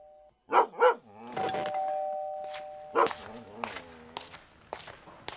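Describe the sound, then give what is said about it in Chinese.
A dog barks a few short, loud barks, a pair close together near the start and another later, with a steady ringing chime between them and people talking. “这是你家的狗呀，长得真好看”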